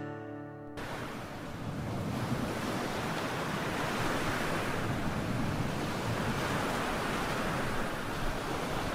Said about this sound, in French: Ah, vous entendez cette mer déchaînée?